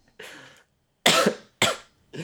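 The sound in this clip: A person coughing alone, a few separate bursts: a softer first one, then louder, harsh coughs with short gaps between them.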